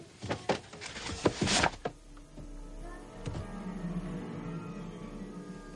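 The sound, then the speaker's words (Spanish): A drawer of a chest of drawers is pulled open with a burst of rattling, scraping clatter, then pushed shut and meets a stop with a dull thunk, all fairly quiet. “Abre un cajón de la cómoda para guardar la ropa interior y al intentar cerrarlo se encuentra con un tope.”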